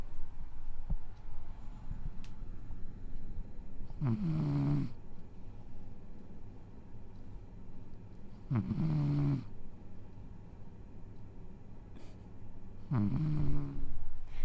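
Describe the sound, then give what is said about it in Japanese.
A pet cat snores while asleep, giving three soft, rasping snores at slow, regular intervals over a faint, steady low background. “隣でうちのにゃんこが寝てるんですけど、すごいいびきをかいてて、ちょっとこれ流してもいいですか。”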